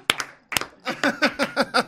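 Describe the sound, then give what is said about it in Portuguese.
Two sharp hand claps land about half a second apart, followed by a quick, rhythmic run of short voiced syllables. “bate palma bate palma”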